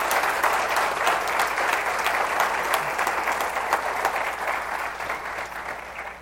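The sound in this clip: An audience applauds to welcome a speaker to the stage. The crowded clapping starts loud and steady, then gradually thins and softens toward the end.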